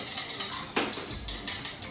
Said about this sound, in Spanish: un poquito de nuestra crema de ajo, un toquecito ahí para que tenga también. Lo mezclamos bien.